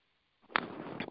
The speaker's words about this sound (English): 3,000 PSI. This is the sniper rifle we were talking about.